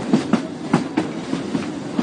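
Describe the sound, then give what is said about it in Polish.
Rhythmic clickety-clack of restored vintage railway carriages travelling through mountains toward a tunnel, regular wheel beats over a steady rolling rumble, with no voices. “Zabytkowe wagony w doskonałym stanie, pięknie odrestaurowane, mkną przez przepiękną górską krainę, pokonując tunele, do którego właśnie wjeżdżamy”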